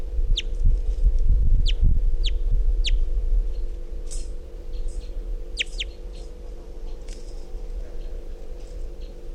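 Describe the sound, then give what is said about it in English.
A wild bird gives faint, brief chirping calls in scattered short bursts over a steady low hum and background noise. “Very weak calls. Wild bird's still here.”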